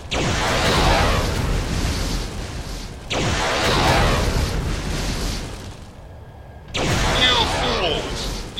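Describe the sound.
Nuclear explosions in a video game sound as three heavy booming blasts, each followed by a long roaring rumble that slowly fades before the next hits.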